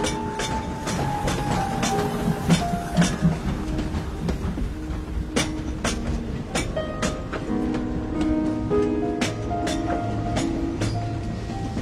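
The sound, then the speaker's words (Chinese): A train pulls into a station with a steady rhythmic clickety-clack of wheels over rail joints, sharp clacks recurring throughout alongside faint squealing tones. “列车要到站了，你们到家了吗？”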